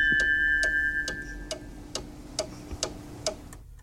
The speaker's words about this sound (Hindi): This time check is brought to you by Radio Sangam. 107.9 FM और 94.7 FM पे studio की घड़ी की सुइयां कहती हैं 11:09:52 हुआ चाहते हैं